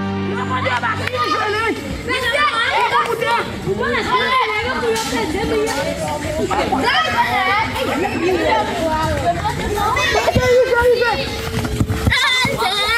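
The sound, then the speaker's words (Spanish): Boys and girls playing football in Haiti fill the air with lively chatter and shouts. Their overlapping young voices form a continuous babble that stays busy and loud throughout. “Este es el sonido más puro del fútbol. Son niños y niñas jugando en Haití”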